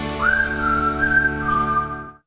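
A person whistles a clear note that slides quickly upward and then holds a long, steady, fairly loud tone for about two seconds before stopping.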